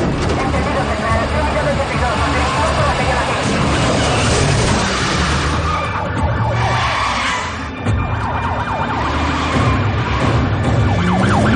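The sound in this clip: A police patrol car siren wails steadily during a chase through narrow streets, with car engine noise beneath it and a voice talking over the sound throughout.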